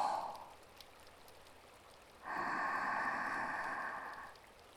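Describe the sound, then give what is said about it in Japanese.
Soft human breathing: a brief airy breath, then one longer, steady breathy rush of about two seconds that fades out, quiet and without voices. “だから息を合わせてほしいの。吸って”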